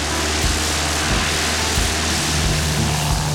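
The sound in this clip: Propeller aircraft droning on a flight from Vancouver Island, landing in Oliver in the Okanagan Valley of British Columbia, a loud, even engine roar with a low hum throughout.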